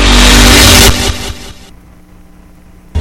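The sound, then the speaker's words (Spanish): Engine revving of a Genesis XG150Z motorcycle with a 150cc motor: a loud, roaring rev at the start that drops away to a quieter, rumbling idle, followed by a short burst at the very end. “Vos tenés el poder de elegir la XG150Z de Genesis. Cuenta con un motor de 150cc, freno frontal de disco,”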